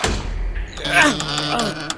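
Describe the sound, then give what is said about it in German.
Heavy, thick church door moving with a low rumbling thud and a drawn-out groaning creak, loud and brief. “diese dicken Türen, diese schweren”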